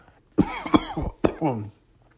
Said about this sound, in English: Oh, choked on my words. Excuse me.